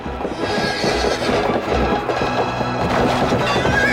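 A horse neighs as it falls during a long mounted fight. A shrill whinny rises over a dense, continuous wash of noise, with hoofbeats mixed in.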